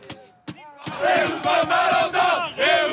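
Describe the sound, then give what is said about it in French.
French football fans roar and chant in celebration after their team qualifies for a World Cup semi-final, a loud mass of voices rising in repeated rhythmic surges. “Eh oui, les supporters français sont en ébullition. après cette qualification pour les demi-finales d'une Coupe du Monde.”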